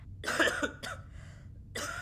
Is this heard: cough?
yes